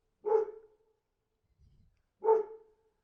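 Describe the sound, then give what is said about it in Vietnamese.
A strange dog barks at night. Two single, fairly deep barks sound about two seconds apart, each with a short trailing tail, separated by near silence. “Con chó lạ lùng lại cứ tiếp tục sủa. Lần này từng tiếng ngắt quãng, kéo dài ra.”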